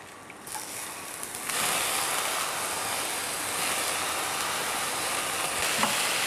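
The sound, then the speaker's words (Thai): Sizzling of lotus root and water-soaked potatoes being stir-fried in a pan: a steady, dense hiss that grows louder after the first second and a half and holds without pause. “ผัดรากบัวก่อนแล้วก็เสร็จแล้วตามด้วยมันฝรั่งที่เราแช่น้ำไว้เอาแป้งออกเล็กน้อย”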